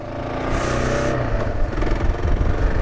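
A motorcycle engine running, a continuous low, rough rumble with mild surges in loudness, steady throughout the short stretch.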